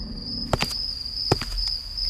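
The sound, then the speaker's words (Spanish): Footsteps at night in a dimly lit area, heard as a few soft, dull thuds in two short clusters beneath a steady, high, continuous chirping of crickets. “Se escuchan unos pasos en la noche.”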